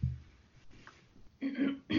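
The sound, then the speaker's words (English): A woman clears her throat in a scene from a horror film: a few short, rough, throaty bursts, the later ones more voiced and tonal, with quiet gaps between them. “Uh-oh. Here we go. She cleared her throat. She cleared her throat.”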